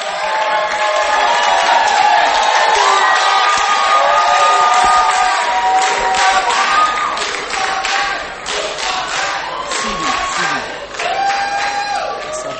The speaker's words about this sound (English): Oh, put your hands together as we welcome Two for Christ.